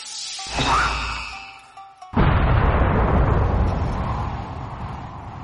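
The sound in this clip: A full-force punch lands in a fantasy battle by the sea: a swelling whoosh builds, then about two seconds in a sudden, heavy boom erupts into a loud, roaring rumble that slowly fades to the end.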